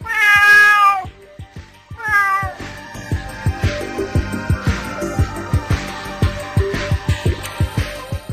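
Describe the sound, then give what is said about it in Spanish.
A cat gives two long, loud, wavering meows, then a steady rhythmic beat of sharp clicks carries on alone. “Tiene orejas de gato, ojos de gato, patas de gato y no es un gato. ¿Quién es? Una gata.”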